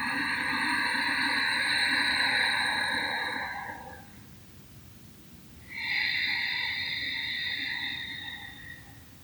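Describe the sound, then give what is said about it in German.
Ujjayi breathing: two slow, soft breaths, each a long hissing rush of air lasting about four seconds, with a quiet pause between them. “Das Geräusch, was du hörst, das ist durch die Ujjayi-Atmung.”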